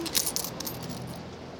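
Coins clink as payment and change are handed over at a counter: a few bright metallic taps and jingles in the first half over a low background hum, then quieter.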